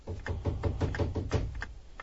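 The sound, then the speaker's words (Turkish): Knocking on a door: a quick, fairly even run of many dull raps at low volume, with no voices over them. “Saat tam 6 ve kapı çalındı.”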